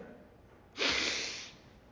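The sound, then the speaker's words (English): One audible breath drawn in sharply by a preacher during an Easter sermon, demonstrating inhaling before breathing out; a short, airy rush lasting under a second that stands alone without talk. “What else do you have to do in order to breathe on somebody? First, you have to breathe in.”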